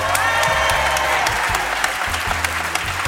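A live radio show audience at the Alcazar library in Marseille applauds, a dense, continuous patter of many hands clapping at an even level throughout.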